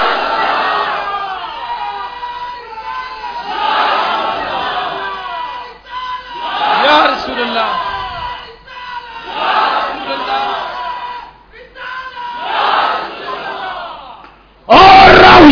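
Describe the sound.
Crowd at a religious gathering roaring back in answer to the Nara-e-Risalat slogan chant, in repeated loud waves of massed shouting with short lulls between them and a sharp final burst.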